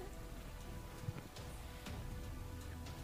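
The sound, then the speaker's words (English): Rain falling, a faint, steady hiss of patter with a few soft drop-like ticks scattered through it and no break in the sound. “do we know when this rain is going to be ending?”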